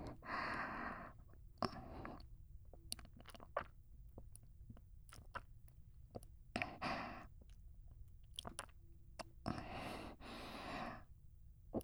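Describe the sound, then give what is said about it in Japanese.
Drinking and swallowing mouth sounds: a series of wet gulps, clicks and breathy bursts spread unevenly over the whole stretch, fairly quiet with no talk. “それでは飲みますので、音はお聞きくださいませ。”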